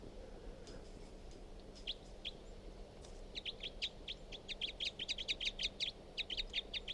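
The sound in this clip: Bird calls: a long series of high, sharp chirps, sparse and faint at first, then a quick, dense run of repeated notes over a low, steady hum.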